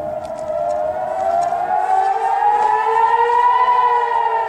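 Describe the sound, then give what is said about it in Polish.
Air raid warning sirens wail over Israeli cities under rocket fire, a loud, continuous harmonic tone that climbs slowly in pitch across the whole stretch, with no voices. “A tak wyły syreny ostrzegawcze w ostrzeliwanych przez Hamas izraelskich miastach.”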